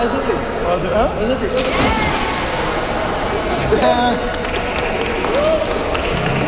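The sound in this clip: A person jumping into water makes a sudden splash, followed by sloshing and watery noise, with people talking over it.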